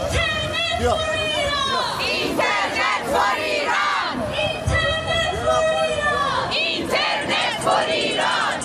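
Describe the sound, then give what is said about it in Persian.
A protest crowd of Iranians chants slogans against the Islamic Republic at a rally and march in Stockholm. Many voices stay loud and continuous throughout, rising and falling together in a steady, shouted rhythm. “برای 20مین هفته متوالی ایرانیان ساکن استکهلم با برگزاری تجمع و راهپیمایی اعتراضی علیه جمهوری اسلامی و سرکوب معترضان در ایران شعار دادند.”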